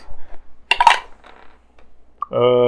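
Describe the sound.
Dice are rolled for attacks in a tabletop game, making a brief rattling clatter. Someone speaks shortly afterward.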